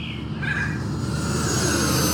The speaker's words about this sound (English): we're flying model aircraft